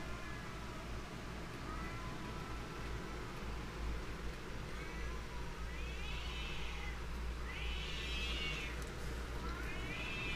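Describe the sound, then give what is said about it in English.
A pet cat meowing: a few drawn-out, rising-and-falling meows come through in the second half, over a constant low background noise. “my cat, that's my cat, let it sing.”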